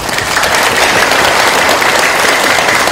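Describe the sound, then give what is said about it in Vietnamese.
Loud, dense applause from an audience at a Buddhist dharma talk: a steady, unbroken wash of many hands clapping that holds an even level from start to finish. “Cho một tràng pháo tay thật lớn.”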